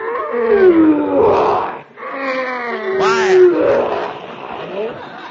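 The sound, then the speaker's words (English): A lion in a circus cage gives two long, loud, throaty roars separated by a short break. Each roar has a groaning, slightly wavering pitch. “That's that lion in that cage over there. Oh. Ferocious-looking beast, ain't he?”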